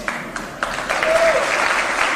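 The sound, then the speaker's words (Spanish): An audience applauds after a speech at a private university in Mexico's capital. A few sharp claps open, then the clapping swells into a dense, sustained round that stays loud to the end. “Esta noche ha dado un discurso en una universidad privada de la capital, donde se ha llevado el aplauso del público al decir esto.”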